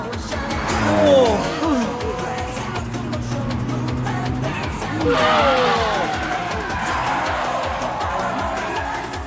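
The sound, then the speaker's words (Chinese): Two cars drift side by side at speed in a 1987 animated series, with tire squeal and engine noise. The squealing swells twice, once early and once midway, over a continuous dense roar. “两架车已经跑得咁近啦，都唔撞喎。呢啲就系有名嘅平衡漂移啊！”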